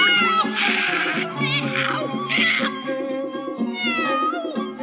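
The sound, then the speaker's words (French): A cat meows in an animated fairy tale set in a sultan's palace: a few drawn-out, wavering meows over a continuous tonal background. “le capitaine apporta le chat de Dick Whittington et en un clin d'œil, le palais fut débarrassé des souris et des rats.”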